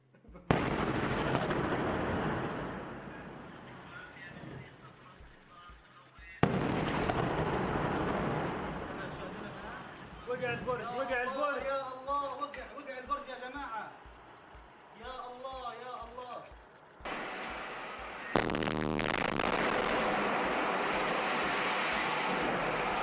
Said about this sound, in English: So here is the Gaza tower block that collapsed after the Israeli strike.